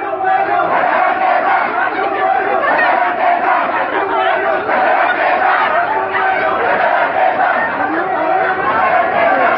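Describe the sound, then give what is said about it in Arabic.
Students at a sit-in chant protest slogans demanding the regime's departure and condemning the killing of protesters. The crowd forms a loud, dense mass of shouting voices that stays unbroken the whole time. “وردد الطلاب المعتصمون هتافات تطالب برحيل النظام وتندد بقتل المتظاهرين”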